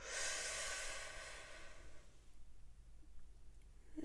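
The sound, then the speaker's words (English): A slow breath drawn in through the nose during a breathing exercise gives a soft, airy hiss for about two seconds, then fades to near silence. “we're going to breathe in through the nose and out through the mouth. Here we go. In through the nose.”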